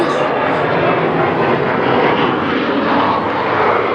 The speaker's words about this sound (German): Warten wir erstmal den Flieger ab.